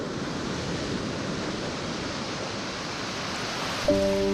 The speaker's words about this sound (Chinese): 东海潮水每日如约而至，涌入宁波象山花澳岛的盐田。